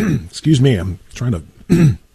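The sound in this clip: A person clearing their throat and coughing in several short, voiced bursts with brief pauses between them, loud and close.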